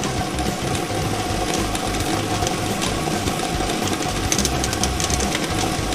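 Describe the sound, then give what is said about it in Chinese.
A lottery draw machine running, giving a continuous mechanical whirring and rattling that stays steady and fairly loud with no breaks. “摇奖机正式启动了，祝大家好运。”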